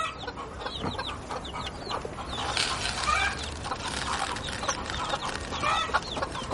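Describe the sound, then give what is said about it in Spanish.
Hens cluck over and over, their calls overlapping into a busy, chattering chorus against a steady noisy background. “A continuación hace lo mismo con las gallinas.”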